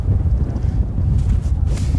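Strong wind blows hard against the microphone in a steady, low, roaring rush with rumbling gusts and no voices.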